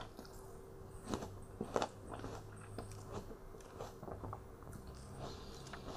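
Crunchy biting and chewing as a person snacks on apples and mandarins. A few sharp, crisp bites stand out over fainter, steady chewing, with no talking.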